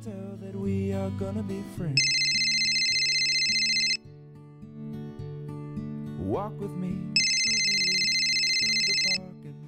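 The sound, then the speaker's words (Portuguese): Telephone ringback heard while a call is placed: two long, steady rings separated by a pause, over continuous background music. “Vamos ligar para ele.”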